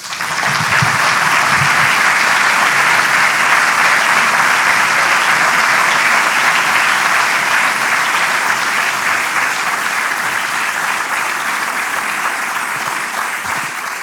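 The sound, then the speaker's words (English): An audience applauds to welcome speakers at a live event: dense, sustained clapping, loud and even throughout, easing slightly toward the end. “Please warmly join me in welcoming Walter Murch and Muriel Murch.”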